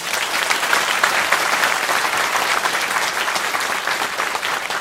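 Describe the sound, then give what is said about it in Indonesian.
Applause from an audience welcoming a guest: dense, steady clapping that holds at an even loudness for the whole stretch, with no break or swell. “saya minta teman-teman tepuk tangan untuk beliau”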